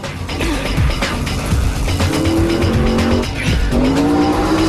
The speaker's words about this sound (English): The vamp car speeds out of control, hits the central reservation, spins onto its back, and slides along the freeway before coming to an abrupt rest and crumpling against a concrete pillar.